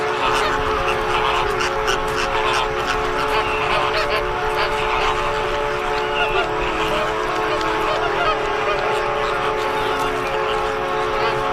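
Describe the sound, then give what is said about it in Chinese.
American flamingos calling at their nesting ground, a loud, dense and continuous chorus of goose-like honking from many birds at once. “加勒比海红鹳终于可以继续筑巢了。”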